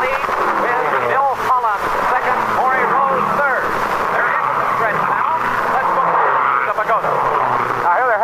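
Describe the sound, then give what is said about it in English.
Race car engines at the start of a 500-mile race on a two-and-a-half-mile brick-and-asphalt speedway, a loud, sustained roaring drone with someone talking continuously over it. “for the first lap of this 500-mile race. 200 laps to two and a half miles each around this tremendous speedway. Brick and asphalt it is. Now here they come across the starting line, and it's Rex Mays”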